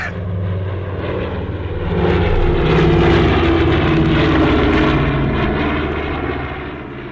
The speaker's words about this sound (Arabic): متهيألي هي الطيارة اللي نازلة دي